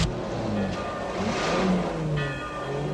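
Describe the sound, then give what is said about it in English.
A car engine runs as the car pulls onto a road, a steady mid-pitched motor drone with revving that stays fairly even and loud throughout, with no voices. “The guard's car pulls onto the road.”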